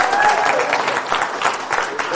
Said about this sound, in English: let's give him a clap. He did a good job.